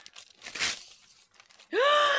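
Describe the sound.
A short papery rip as a wrapped Christmas present is torn open, followed by a voice giving a drawn-out exclamation that rises in pitch.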